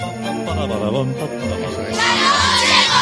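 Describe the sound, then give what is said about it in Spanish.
Theme tune jingle of a late-night COPE radio programme, a melodic musical phrase that grows brighter and louder partway through. “Din, din, din, din. No sé si habéis oído alguna vez esta sintonía. Vamos a dejar que recorra un poco,”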